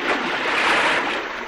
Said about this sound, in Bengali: আরে ওইদিকে আবার পুকুরে ঝাপাঝাপি করে কারা?